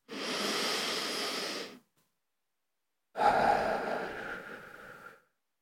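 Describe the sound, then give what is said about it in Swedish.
Deep breathing during a guided meditation: two long, airy breath sounds separated by a silent pause, soft and unaccompanied by talk. “Ta ett djupt andetag till.”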